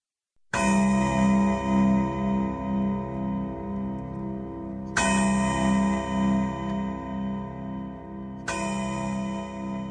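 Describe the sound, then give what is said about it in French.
A clock chimes the hours with three loud metallic strokes several seconds apart, each a bright, ringing bell tone that hums and slowly fades before the next strike. “Trois heures sonnèrent, puis quatre. La demie tinta son double carillon.”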